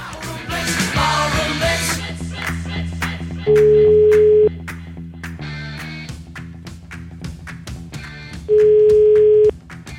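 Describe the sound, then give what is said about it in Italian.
Telephone tone while placing a call, two long, steady, pure beeps spaced several seconds apart, each about a second long, standing out above a busy background of rhythmic hits and tonal sound. “Adesso io chiamerei un signore che mi sembra si chiami Salvatore, che mi è stato segnalato con tanto di numero di telefono”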